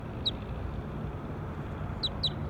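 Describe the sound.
Short, high bird chirps: one near the start, then three in quick succession near the end, each brief and faint over a steady low rumble.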